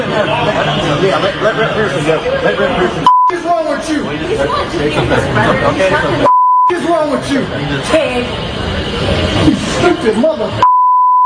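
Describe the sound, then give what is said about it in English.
Short, steady censor bleeps cut over swearing during a heated confrontation with a law enforcement officer. Three mid-pitched tones interrupt loud overlapping voices and crowd chatter. “We're going to have to bleep out what he said to this fine law enforcement officer”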